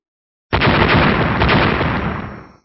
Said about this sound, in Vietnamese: Từng âm thanh nổ tung vang lên liên tiếp không ngừng